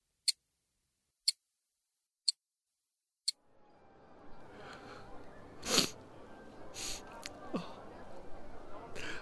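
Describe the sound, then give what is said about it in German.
Sharp ticks from a father's clock left in a car, four crisp clicks spaced about one second apart in otherwise near silence, then giving way to a rustling, noisy background with a brief louder burst. “Das Ticken, das mir zeigt, dass man Zeit nicht zurückdrehen kann.”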